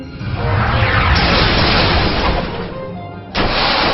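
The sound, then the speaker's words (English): A Nightstick attack move lands in a video game battle as a loud, sustained crashing burst. It eases off toward the end before a second sharp hit strikes near the close. “Apparition used Nightstick.”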